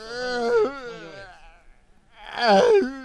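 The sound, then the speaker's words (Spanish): A person wails and moans into a microphone in exaggerated, quavering cries, two long wavering bursts separated by a short, nearly quiet gap. “Parece que te están ahorcando. Ese es el problema, bro. Y ahorita no llores en el micrófono, güey.”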